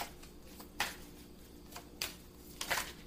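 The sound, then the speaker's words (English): Faint, soft swishes as cards are drawn from a deck during a card reading, a few brief papery slides spaced apart with quiet between them and no talk. “May I have one more card, please?”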